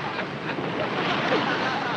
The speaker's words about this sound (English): Look sharp, lads. We're getting into rough water.